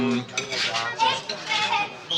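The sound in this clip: Cutlery scraping and clinking against a plate as food is cut through, a busy, continuous clatter of metal on crockery lasting a couple of seconds, with voices talking underneath.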